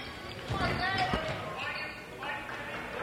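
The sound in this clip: A basketball is dribbled on a court during a game, giving a few dull, quick bounces that stay faint under continuous talk.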